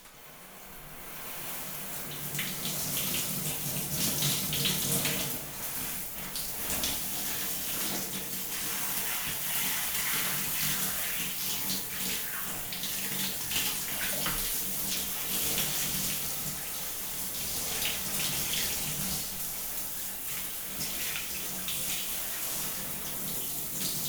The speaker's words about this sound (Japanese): それでは、お流しいたしますね。